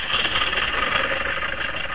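A car engine runs as the car is taken out for a ride, giving a steady, continuous rumbling drone at an even level throughout, with no voices.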